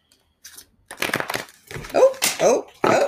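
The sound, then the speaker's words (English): Tarot cards being shuffled, with some spilling out of the deck: a few crisp, papery rustles and flutters, followed by a woman talking. “Oh. Cards flying out.”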